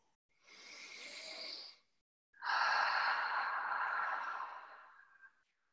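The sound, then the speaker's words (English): A deep breath, audible on its own as a drawn-in breath of about a second, then a short pause and a longer, heavier sighing exhale that fades out gradually. “Just taking a deep breath.”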